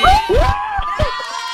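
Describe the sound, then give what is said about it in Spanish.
A group shouts and cheers to celebrate a classmate who won concert tickets during a live show. A few high, rising whoops and yells rise loudly over crowd noise, then fade. “yo quiero que por favor a la de tres le echemos un grito fuerte a David”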